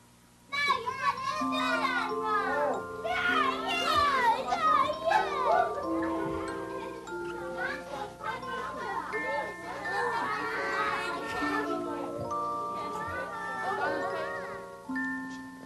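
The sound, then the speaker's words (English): Children playing at a birthday party: many young voices shouting, squealing and chattering at once, in a loud, busy and continuous stream that lasts about fifteen seconds. “Do you hear the children at the birthday party?”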